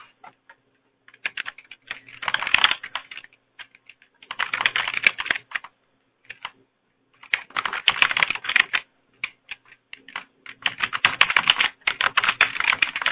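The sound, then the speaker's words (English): Referee names are typed on a computer keyboard in several bursts of rapid clicking keystrokes, separated by short pauses. “And so what you'll do is you'll type them in.”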